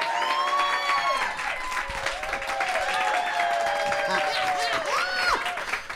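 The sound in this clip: A comedy show audience in Tampa applauds and cheers without a break, with high whoops and shouting voices riding over a dense, continuous wash of clapping.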